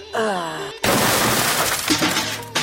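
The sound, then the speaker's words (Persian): A door is smashed in with a loud, sustained crash of splintering and banging noise that erupts right after a short shouted voice and continues to the end. “بیا که دروازه رو بشکنانیم. بگی تو بگی بیا. شانه رو بند که بزن.”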